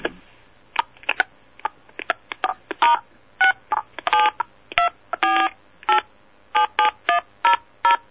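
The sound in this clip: Telephone keypad tones as a number is dialed: many short, clear electronic beeps in an uneven run, some quick and clipped, others held slightly longer, loud and alone.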